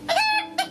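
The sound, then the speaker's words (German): A Russian rooster crows once in a single short, bright call that holds briefly and then clips off in a quick final note. “Der. Hier. Das ist ein russischer Hahn.”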